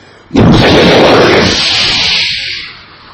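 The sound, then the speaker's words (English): A lightning bolt strikes a house with a sudden, sharp, loud crack. It swells at once into a broad, thunderous roar that holds for about two seconds before fading out. “a lightning bolt struck the house. The volume of the thunderous roar of this lightning caused the entire house to shake”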